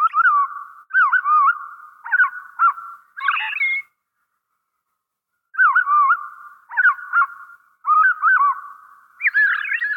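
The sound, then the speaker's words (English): A robin's evening song slowed to half speed, so the clear whistled notes sound lower and drawn out. Two runs of short, warbling phrases are split by a silent pause in the middle. “Let's listen more closely to the fine detail of a robin's evening song by slowing down the same notes to half normal speed.”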